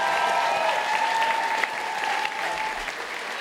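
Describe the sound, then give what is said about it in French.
An audience applauds in a hall after an a cappella song, a steady, continuous round of clapping that holds an even level for a few seconds without speech. “Ça, il y a eu des applaudissements. Oui, on peut l'applaudir.”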